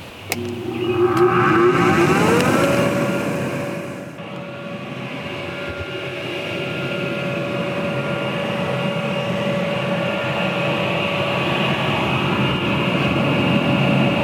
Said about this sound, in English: So right now, what I'm going to do is turn this on, and it's going to blow air, I'll follow it with the camera, through the plenum, into the compost pile, and then up.